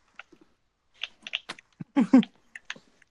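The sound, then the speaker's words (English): Typing on a computer keyboard, with scattered, irregular key clicks in small bursts separated by short gaps. “Hold on. Let me quick type in all these last names.”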